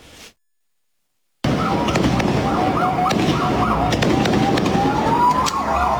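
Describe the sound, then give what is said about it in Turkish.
Fireworks set off at night: after a brief cut-out, a continuous loud barrage of crackling pops and bangs, with high whistling tones rising through it. “Havai fişek ateşlediler gecenin bir saatinde.”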